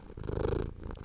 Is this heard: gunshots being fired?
no